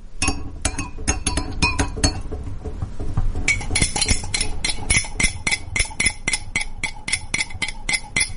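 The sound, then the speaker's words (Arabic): A metal spoon stirs a drink in a glass cup, giving many quick, bright clinks in an uneven rapid rhythm that keep going for several seconds with no talk. “ده كان صوت تقليب مشروب سواء كان حار بارد أي شيء قلت لي إياه يعتبر صوت تقليب مشروب. فعلا عندي الكاسة أو الكوباية تكون قزاز والملعقة الحديد فهذا صوت تقليب”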